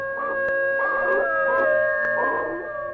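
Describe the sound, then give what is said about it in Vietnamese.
A dog howls at night in a village, sustained wavering cries that carry in bouts through the whole clip, loud and steady, with no voices. “Đang say giấc, bỗng ông giật mình vì tiếng kêu của con chó. Nó rú lên từng hồi, nghe đến rợn cả người.”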